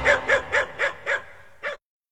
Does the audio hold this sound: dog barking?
yes